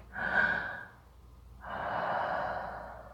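A person demonstrates breathing into someone's ear with two long, airy breaths, the second longer and steadier than the first. The breaths are soft and unvoiced, with no words.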